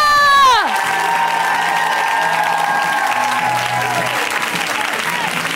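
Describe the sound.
Audience applause and cheering greet a comedian at a comedy show, rising as a shouted voice trails off at the start, then holding as a dense, loud, steady wash of clapping with scattered whoops to the end.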